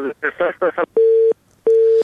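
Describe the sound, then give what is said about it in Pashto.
Telephone tones from pressing the buttons of a phone: after a brief burst of talk, two steady, even electronic beeps sound at the same pitch, separated by a short gap. “د تلیفون په سویچو باندې ګوتی مو وهنو دا ټونګ ټونګي مونږ ته راځي.”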